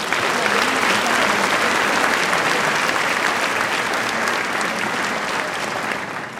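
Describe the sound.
Sustained applause from an audience welcoming a pastor as he comes out to speak on marriage: dense, steady clapping that holds evenly throughout and tapers slightly near the end.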